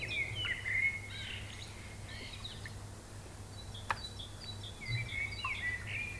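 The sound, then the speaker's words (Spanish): Birds sing in quiet, scattered bursts of high, quick chirps and whistled notes over a low, steady hum, with no talk. “Esos pájaros.”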